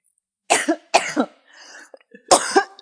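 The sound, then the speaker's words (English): Harsh coughing and throat clearing from a tickle in the throat, in three short bursts, each breaking into two quick hacks, with quiet pauses between them. “I've just got a tickle in my throat. That's all right. We can pause for a sec.”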